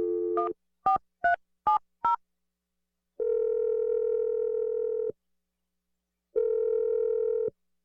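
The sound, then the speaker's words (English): Telephone keypad tones as a number is dialed: five short beeps in quick succession, then two long, steady ringing tones separated by a pause, with no talking. “I'm gonna dial the number right now.”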